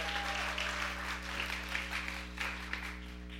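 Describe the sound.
Applause from an audience welcoming a guest pastor: steady, continuous clapping from many hands over a low, constant hum, with no clear pauses.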